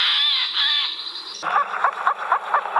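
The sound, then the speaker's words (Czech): A Eurasian jay call plays from a recording: a steady high-pitched tone opens, then a run of harsh, raspy screeches repeats several times in an uneven rhythm. “Pustíme si sojku? Takže už tam tady řve”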